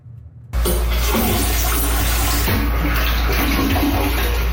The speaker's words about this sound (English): That's the sound of a public toilet in downtown Whitehorse